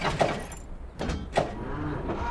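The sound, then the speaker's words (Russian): A car engine failing to start as the key is turned, heard as a few short mechanical cranking bursts separated by quieter gaps, with no engine catching and no talk. “Мотор не заводится.”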